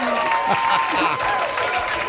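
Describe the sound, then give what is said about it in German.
Crowd applause, dense continuous clapping filling the whole stretch at a steady level, mixed with a sustained tonal layer running over it. “Hier kommt ein Applaus.”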